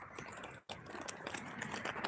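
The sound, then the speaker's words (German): A paper receipt being folded gives a few faint, crisp crinkles and light taps. Near the start there is a brief moment of near silence. “Ich falte jetzt gerade den Brief zusammen, also den Zettel, den Kassenbon.”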